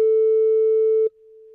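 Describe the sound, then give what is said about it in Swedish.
A telephone ringback tone after dialing a number: one steady, single-pitched beep lasting about a second, which then drops to a faint continuing hum. “slår du numret där”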